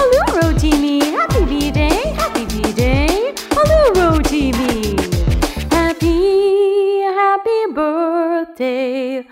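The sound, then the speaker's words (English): Dog-like barks and yips open a birthday song: many quick, loud, sliding barks for about six seconds, then a long, wavering, howl-like tone that continues to the end. “My dog says, woof, woof, to you”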